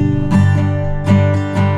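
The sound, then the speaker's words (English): An unamplified acoustic guitar rings out with bright metallic overtones, several strummed chords falling in a loose rhythm, each attack blooming and sustaining into the next, loud and without voices. “It's an acoustic guitar, and it makes a sound like this, because it is not amplified yet, right? Can you hear the metallic sort of ring?”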